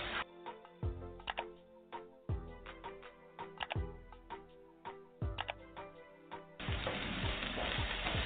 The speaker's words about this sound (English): I'm on medium high right now. Non-stick is the best pan to use because we don't want the beef sticking to the pan